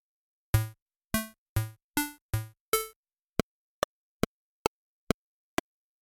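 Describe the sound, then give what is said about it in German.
A computer-game-style melody in bright synthetic tones: six longer ringing notes, then six short, crisp blips at an even pace, played alone. “Akustisch wird es symbolisiert durch die Klangästhetik eines Computerspiels. Es klingt so.”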